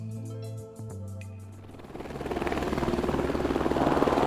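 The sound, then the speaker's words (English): A helicopter takes off from an airport carrying heli-skiing clients. A steady, rapid rotor chop and engine roar builds from low to loud, the pulsing thump growing stronger over the last few seconds. There is no talk. “That's a helicopter for Southeast Alaska Backcountry Adventures on Thursday morning, taking off from the airport with clients to ski nearby slopes.”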